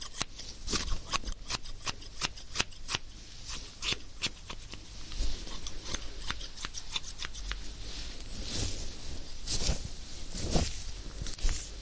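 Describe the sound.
Scissors cutting hair: many quick, crisp snips in irregular bursts with brief pauses between them, alone with no talk.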